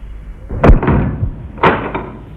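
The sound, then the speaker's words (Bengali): A door bangs as it is opened, giving two heavy, loud thuds about a second apart, each with a brief rattling tail, and no voices. “দরজাটা খুলুন, দরজা খুলুন, কে দরজাটা খুলুন একটু।”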